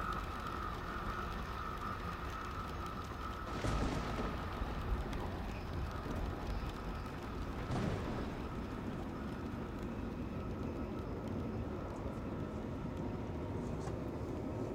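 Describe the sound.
The moving overnight train rumbles and rattles steadily in a continuous low wash of noise, fairly quiet and unbroken, swelling briefly a couple of times.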